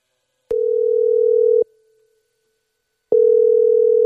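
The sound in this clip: Telephone ringing tone heard while placing a call: two steady, loud, single-pitched burrs, the first about a second long, then a pause of over a second, then a second burr that runs until the end, with no talk.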